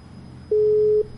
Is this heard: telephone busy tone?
yes